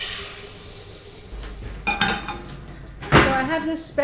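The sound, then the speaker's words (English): Sugar being measured in a kitchen brings light clinks and scrapes of utensils against dishes, quiet at first and then louder in a few brief clattering bursts. “Okay, so I'm measuring some sugar.”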